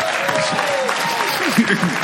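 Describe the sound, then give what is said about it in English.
Audience applause fills the whole two seconds as a dense, even patter of many hands clapping together, with faint voices audible under it. “Give Sydney a hand clap.”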